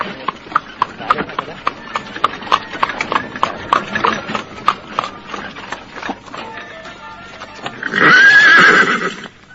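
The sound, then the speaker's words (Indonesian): Horse ridden by a man: many quick, rhythmic hoofbeats clop along, then a loud, high whinny rises and shakes near the end. “Patih Nambi melihat seorang laki-laki berkuda menghalang di tengah jalan”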